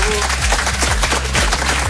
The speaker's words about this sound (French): Bien évidemment, vous pouvez les applaudir, c'est cool. Bravo. Bravo.